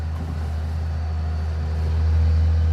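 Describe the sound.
A forestry harvester driving across a field, its heavy engine giving a steady low drone and deep hum that grows slightly louder toward the end.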